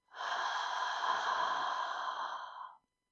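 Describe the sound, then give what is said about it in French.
One deep, slow breath, heard alone as a steady, airy rush of air lasting about two and a half seconds before it stops abruptly. No talking is heard. “Je vous propose de prendre une profonde inspiration, d'expirer”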